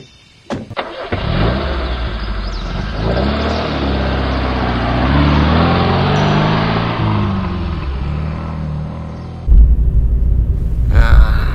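A car engine cranks briefly and starts, then runs with a steady mid-pitched hum as the car drives off. A heavier, louder rumble comes in near the end.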